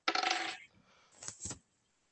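Dice are rolled for a check in a tabletop role-playing game, a short burst of hard rattling clatter followed by two lighter clicks as they settle, with no talk.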